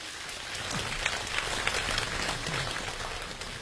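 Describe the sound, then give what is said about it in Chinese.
Audience applause welcomes a performer onto the stage at a Beijing comedy crosstalk show, a dense, steady patter of many hands clapping that holds at an even level throughout. “掌声有请连春建。”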